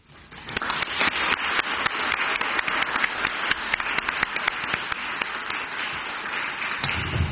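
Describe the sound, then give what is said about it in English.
Steady applause at a council meeting welcoming new councillors, many hands clapping densely and evenly for several seconds before easing off near the end. “we welcome our new members with a clap, which we'll do in a second”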